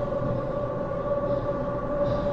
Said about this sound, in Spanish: El tren bajó la velocidad hasta que hizo alto total, entonces se abrieron las puertas.